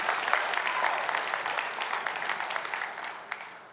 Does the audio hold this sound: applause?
yes